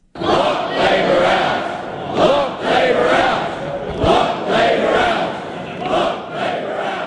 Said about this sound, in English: That's the sound of the ACT Party faithful chanting the party's battle cry for the upcoming election.